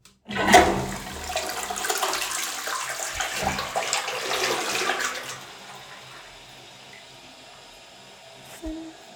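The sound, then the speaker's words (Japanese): A toilet flushes with a loud, steady rush of water for several seconds, then settles into a quieter running trickle as it refills, with a short knock near the end. “おしっこは真っ黄色。流します。”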